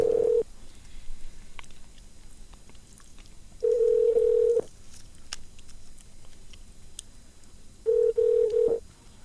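Telephone line tones on a call to a shop's automated phone menu: three steady single-pitch beeps of medium pitch, each roughly half a second to a second long, separated by quiet gaps of several seconds.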